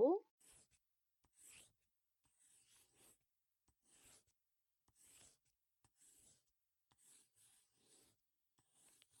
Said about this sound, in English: Okay, draw the inscriptions on the floor like so.